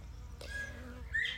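Faint birdsong in the background of a guided meditation: a few thin, clear whistled notes, the brightest and loudest near the end, over low steady ambient noise.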